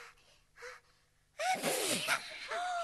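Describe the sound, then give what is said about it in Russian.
A sneeze: two faint breathy gasps lead into a sudden loud, explosive burst that trails off into breathy noise. “Он чихнул, девочки.”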